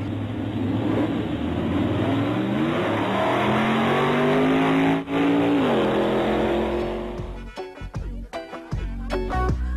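A Hummer engine roars and revs hard, its droning pitch climbing steadily before dropping back, then the engine noise gives way to a thumping, beat-driven music track.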